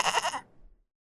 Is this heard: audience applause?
no